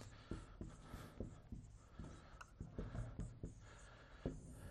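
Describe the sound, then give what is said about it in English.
Faint scratchy strokes of writing the word authority on a board, many short marks in an uneven rhythm, with no voice. “I'm just going to write on the board. I'm going to write the word authority.”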